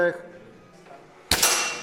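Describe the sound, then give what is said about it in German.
Rifle fired at a school shooting training after being cocked and hand-loaded: a brief click at the start, a quiet pause, then a single sharp, bright metallic crack that rings on briefly. “Ich spanne ihn und jetzt lege ich die Munition hier in das Loch hinein. Ja? Ich schließe es und jetzt schaue ich durch das Löchlein, ziele, halte den Atem an und der Schuss fällt.”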